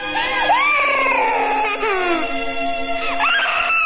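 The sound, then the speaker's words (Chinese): Sorrowful crying from a small demon king in a fantasy tale. High, wailing cries with sliding, quavering pitch come in a few long bursts that rise and fall, loud throughout. “在小妖王悲痛的哭声中，天音和霍小兰渐行渐远。”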